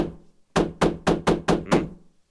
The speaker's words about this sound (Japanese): ドアが痛む。そんなに力任せに叩くものではない。